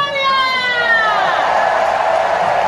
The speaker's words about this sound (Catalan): Se sent mogollon de gent, eh?